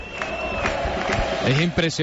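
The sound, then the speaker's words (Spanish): Crowd cheering and celebrating at the close of the Noche de Enanos festival night at the Alameda. A continuous roar of many voices with shouts, a thin whistle-like tone early on, and a voice calling out over the noise near the end. “Es impresionante el aplauso del público, de toda la gente que está celebrando con toda la alegría y que no querían que terminase esta noche de enanos”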